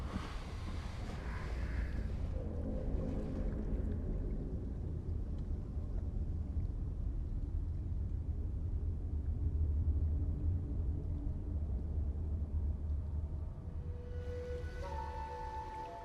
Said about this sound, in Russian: Видит проплывающую лодку с тремя мужчинами.